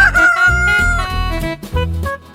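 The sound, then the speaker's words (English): A rooster crows loudly in a long drawn-out call over a steady rhythmic backing with strong low beats. “Rooster.”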